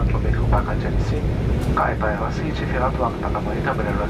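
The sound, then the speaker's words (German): An airplane on approach for landing at Constantine's Mohamed Boudiaf airport gives a loud, steady engine drone that holds throughout, with voices talking over it. “Anflug auf Konstantin. Es ist Nachmittag.”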